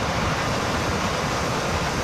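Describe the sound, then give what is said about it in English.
Cougar Creek in Canmore roars in flood: a dense, loud, unbroken rush of churning water, steady throughout with no pauses. “Our little creek in Cougar Creek is raging again.”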